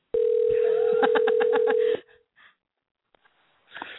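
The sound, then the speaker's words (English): A telephone places a live call: a loud, steady dial tone sounds for about two seconds, and a quick run of keypad beeps plays over it. The tone then cuts off, leaving only a few faint, short sounds. “let's try the live call. Dialing. Here we go.”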